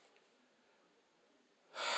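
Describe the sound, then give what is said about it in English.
A quick, sharp intake of breath cuts in at the very end, loud and breathy after near silence, as someone braces before speaking. “I gotta take a deep breath when I say this.”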